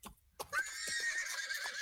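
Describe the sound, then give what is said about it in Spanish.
A horse whinnies in one long, loud, shaky neigh that follows a few brief soft knocks. The vibrating call holds steady until the end. “Ok, dice que sí está a gusto. Nomás no lo regañen, porque no le gusta que lo regañen. Es bien delicado ese mendigo caballillo.”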